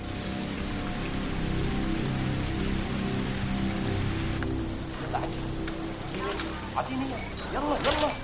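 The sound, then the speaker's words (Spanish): Steady rain falling at night in a ghetto, a dense, even hiss of drops running through the whole clip, with faint lower sounds layered beneath and a few sharper tonal blips near the end. “De noche, por el gueto, continúa lloviendo.”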